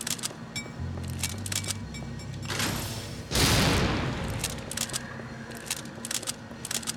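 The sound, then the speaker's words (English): A grenade explodes in a video game with a sudden loud, booming blast midway through that rumbles and decays over a couple of seconds, surrounded by sharp, scattered gunshots before and after, with no talking. “I mean, I guess I have a grenade. I could just do this.”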